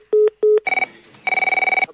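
A telephone rings: two short, loud ring bursts, then a pulsing electronic trill that comes in two bursts, with no talk over it.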